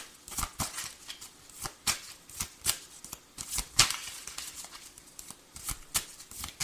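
Playing cards being shuffled and drawn, with many crisp snaps and riffling flicks in an irregular, fairly faint run and no voices.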